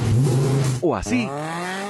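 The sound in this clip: A car engine revving through a sports exhaust: after a brief spoken question, the engine gives one quick rev rising sharply in pitch, then settles into a steady, raspy drone.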